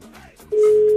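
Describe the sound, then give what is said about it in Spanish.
A telephone call tone plays as someone dials their middle daughter. After a faint, muffled lead-in, a loud, steady, single-pitched tone starts midway and holds unbroken to the end. “Sí, le estoy marcando a mi hija de en medio.”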